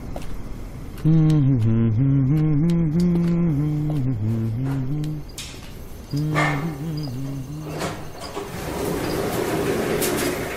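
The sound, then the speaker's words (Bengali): An apartment-complex elevator door opens on the eleventh floor: a droning tonal hum that shifts in small steps for several seconds, pauses, returns briefly, then gives way to rattling noise. “শেষ অবধি যখন এগারো তলায় এসে খোলে কমপ্লেক্সের এলিভেটরের দরজাটা”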